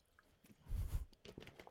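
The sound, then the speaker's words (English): Sip of water taken close to the mic, heard as a brief, low, wet, squishy mouth sound with a soft swallow-like burst in the middle and a few faint clicks after it. No voice. “I'll have a sip of water over here.”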